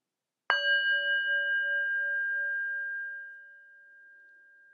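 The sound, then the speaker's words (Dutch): A singing bowl is struck once as a meditation start signal: a bright metallic strike opens into a long, pure ringing tone with a gentle wavering pulse that slowly fades over about four seconds. “Ik pak mijn klankschaal erbij. Die geeft het begin- en eindsignaal aan.”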